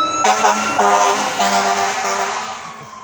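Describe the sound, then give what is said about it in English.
A siren wails with strong harmonic tones that shift in pitch in steps. Traffic rumble sits beneath it, and it holds fairly loud before easing slightly toward the end. “Now there's a siren.”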